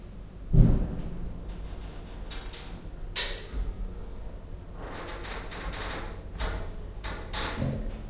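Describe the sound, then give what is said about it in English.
Lift doors close with a dull thud near the start, then the lift goes up with a low running rumble and a few scattered soft clicks and knocks. “closing. Going up.”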